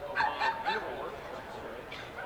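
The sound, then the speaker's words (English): Dogs in the stands of a ballpark on a dog night at a baseball game, faint yips and barks: a few short high yelps early on and another near the end over a low background. “It's dog night here tonight. You can hear the puppies in the background as they roam the stands.”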